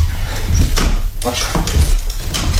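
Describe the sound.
A door shuts as someone is locked into a small side chamber, giving a few dull knocks and scrapes while people talk over it.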